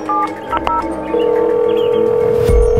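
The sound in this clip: Telephone dialing for a phone call: a few short, loud touch-tone beeps give way to a long, steady tone that holds to the end. No voices are present.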